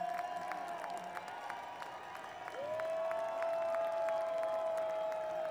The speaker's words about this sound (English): Everybody clap your hands and maybe the band will come back out.